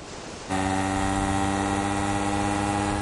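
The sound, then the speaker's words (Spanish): A motorcycle engine running on a road beside a beach gives a steady, droning hum with strong layered harmonics. It starts abruptly after half a second of quieter noise and then holds an even level throughout. “conduce su moto por una carretera junto a la playa.”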